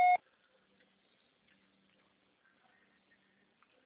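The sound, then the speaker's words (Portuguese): A voicemail beep sounds once: a single short, loud, steady-pitched tone right at the start, followed by near silence with only faint scattered noise. “Estará sujeito à cobrança após o sinal. Deixe seu recado.”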